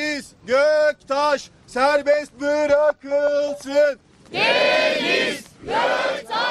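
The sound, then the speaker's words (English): Dozens of protesters chant in Turkish outside an Istanbul courthouse in the rain, demanding a stand-up comedian's release. Loud, rhythmic voiced phrases repeat several times, then a broader, noisier crowd roar with shouting takes over. “Well, what you heard there were chants of Free Deniz Göktaş.”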